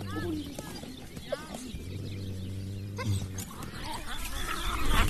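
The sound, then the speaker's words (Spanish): A pregnant she-wolf being hugged by a man makes wild vocal sounds: low growling tones and thin rising and falling whines over a rough, noisy background, with people talking throughout. “ahora mismo este hombre está abrazando a un lobo. Está preñada, abrazando una loba preñada. Los gestos salvajes de ese animal.”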